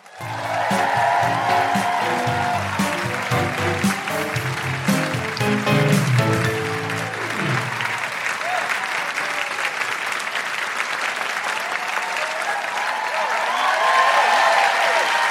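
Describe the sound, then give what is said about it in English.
Audience applause welcoming a poet to the stage at a Canberra event: loud, dense clapping that holds steady for the whole stretch and swells slightly again at the end. “Please put your hands together and make incredible Canberra welcoming woohooing noises for the wonderful Hangama.”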